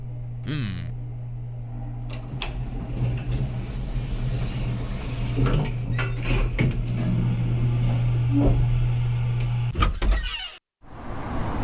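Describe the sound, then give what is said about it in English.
An elevator runs with a steady low motor hum and scattered mechanical clicks and clunks. The drone cuts out near the end after a brief noisy burst. “God damn this elevator. Faster, damn you. I don't want to be in an elevator.”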